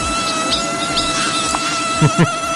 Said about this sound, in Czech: Tohle je zvuk, který mě štval dneska celou noc. Máš ráda komáry?